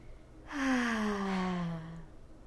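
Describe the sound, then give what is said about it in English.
A deep breath let out as a long voiced sigh, lasting about a second and a half, steady at first and then sinking gently in pitch before trailing off. “we're gonna take a deep breath right now.”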